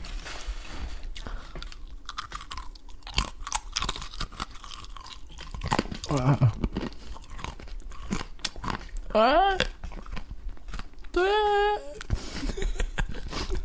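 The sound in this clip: Biting and chewing eating noises, with wet crunches and sharp clicks running steadily for about fourteen seconds and a few squeaky, whining vocal sounds rising up between them.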